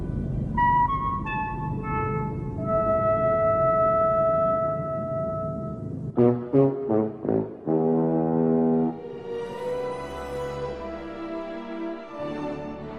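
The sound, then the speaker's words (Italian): A five-tone alien contact melody from a 1977 science fiction film: five pure synthesized notes step out one by one. A few loud, brassy blasts follow, then a dense sustained chord and a swelling, noisy texture. “Se è tutto pronto qui al comando base segreta, suonate i 5 toni.”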